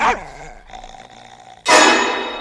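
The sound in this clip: A dog growls at a stranger: a low, rumbling growl with a rough harmonic tone, then a sudden loud, harsh burst that trails off.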